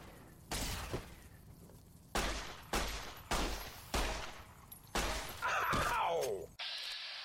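Heavy gunshots from a gun fired in a video game against robotic scorpions, several loud, punchy blasts with decaying tails at irregular intervals, joined by a shattering, crackling burst near the end over continuous game background noise.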